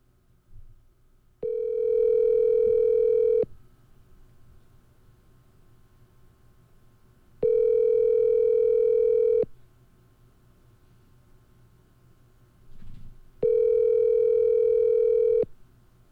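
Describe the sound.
Ringing tone of an outgoing phone call: three steady, evenly pitched tones, each about two seconds long, separated by longer silent gaps over a faint line hiss.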